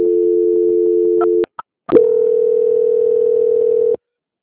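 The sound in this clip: Telephone line tone during a call transfer: a steady, loud hum-like tone cuts off with a click, a short silence follows, then a second steady tone at a slightly different pitch sounds for about two seconds before stopping abruptly.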